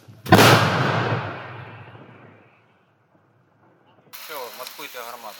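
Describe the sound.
A single loud boom from a Paladin 155mm howitzer fired by a Ukrainian 24th Separate Mechanized Brigade crew, rolling and fading over about two seconds into silence, after which a voice speaks.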